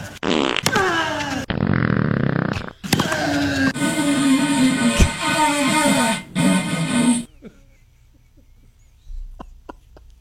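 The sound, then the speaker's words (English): A series of long, loud, rasping farts in close succession, each a buzzy, sputtering blast, followed by quiet with a few faint clicks. “He's tuning it up here. Oh, no. That was a test fart.”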